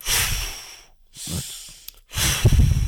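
Forceful breaths of a bhastrika breathing exercise, done while raising the arms, come as three loud, hissing bursts of air in and out, each about a second long with short gaps between them.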